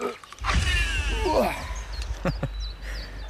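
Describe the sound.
A fishing line is cast with a rod and reel, giving a quick swishing whoosh and a whirring spin that fades over about a second, followed by birds chirping faintly.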